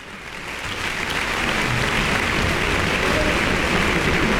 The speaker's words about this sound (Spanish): Y ahora mismo escuchamos a la sala de conciertos del Centro Cultural Tlacná reconocer, aplaudir, celebrar al maestro Emanuel Quijano.